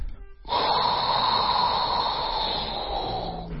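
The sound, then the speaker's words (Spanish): A deep inhale through the mouth with lips pursed like a fish, during a breathing exercise: after a brief quiet start, a long, airy rush of drawn breath lasts about three seconds, holding steady before slowly easing off. “vamos a respirar por la boca, haciendo una especie de boca de pececito, y vamos a inhalar lo más profundo que podamos.”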